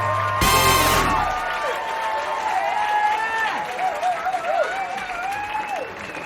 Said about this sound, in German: Einen großen Applaus für Sebastian Hering.